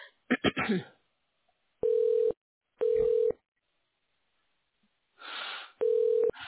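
Telephone keypad tones dialed in an automated phone menu: three steady, even beeps of about half a second each, separated by pauses, with a few brief clicks and a burst of line noise between them.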